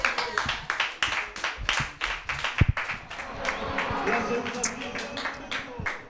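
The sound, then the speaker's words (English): Audience applause for a comedian at an open mic night, many sharp hand claps in a quick, uneven patter that thickens toward the end, with a voice talking over it. “Put your hands together, everybody”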